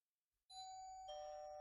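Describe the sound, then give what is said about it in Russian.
Doorbell in an entrance hall rings late at night, a soft click followed by a clear two-tone ding-dong, the first chime higher and the second lower, both ringing on sustained and bright. “Звонок в передней.”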